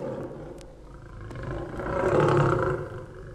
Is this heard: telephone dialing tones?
no